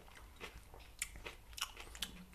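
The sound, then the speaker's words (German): Someone bites and chews a vegan McRib-style burger patty, eaten plain without sauce, making soft, faint crunching and chewing sounds in a few irregular bites. “So, dann probieren wir mal das Burger Patty. Erstmal ohne Soße.”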